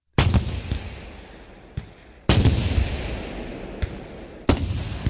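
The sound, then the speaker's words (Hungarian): Cannons firing from castle walls: three heavy booms about two seconds apart, each trailing off in a long rolling decay, with fainter, smaller reports between them. “Amikor bevágtattak a várudvarra, megszólaltak a falakon az újlakiak ágyúi.”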